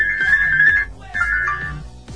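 An incoming call sets a phone ringtone going: two bursts of a bright, melodic electronic tone separated by a short pause, fairly loud and without talk.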